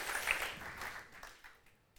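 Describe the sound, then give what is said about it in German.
Applause from a church audience, faint and evenly spread, its dense patter thinning and fading away over two seconds. “Vielen, vielen Dank, dass ihr das möglich macht. Genau. Das ist euer Applaus für euch.”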